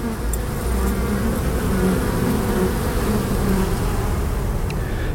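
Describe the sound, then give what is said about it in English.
Honeybees buzzing at a school beekeeping area, a dense, continuous droning hum that holds steady throughout with no talk. “Now we are the beekeeping range of our school. Student can learn the beekeeping.”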